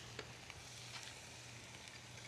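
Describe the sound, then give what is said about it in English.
Oil sizzling in a frying pan just set on the heat, a soft, steady hiss with faint scattered crackles and no talking. “And we'll put these in the pan here. So I'll turn that on. And we'll put a little bit of oil in there.”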